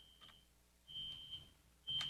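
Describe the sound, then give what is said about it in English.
Fire alarms go off with faint, high-pitched electronic beeps. Three tones come at roughly one-second intervals, with a low rumble under the later ones. “I'm sorry I can't be more professional with the fire alarms going off.”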